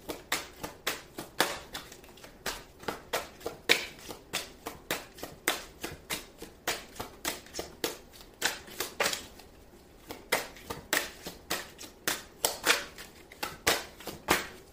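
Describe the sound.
Tarot cards being shuffled and drawn: many crisp, snapping flutters repeat in a steady rhythm with no voice over them.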